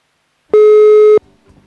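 A telephone line tone sounds while a number is being called: one loud, steady electronic beep at a fixed pitch, lasting well under a second and cutting off cleanly, with only faint noise afterward.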